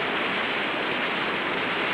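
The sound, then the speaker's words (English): Steady rushing roar of a waterfall plunging down a rock escarpment into a shallow stream, a dense, even wash of water noise that holds constant throughout. “Before them, a waterfall plunges down the escarpment into a shallow stream.”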